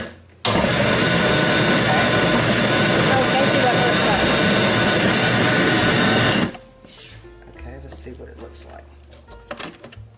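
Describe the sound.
A food processor pulses a sausage ball mixture, its loud, steady motor whirring for about six seconds before cutting off, leaving faint clatter afterward.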